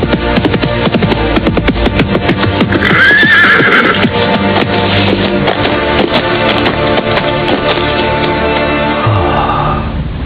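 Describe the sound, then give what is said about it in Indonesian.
A horse neighs while being ridden. Steady clip-clop hoofbeats run through the whole clip, loud and dense, and a single shrill whinny rises above them early on. “Bagaimana aku bisa berkuda sampai ke tempat ini?”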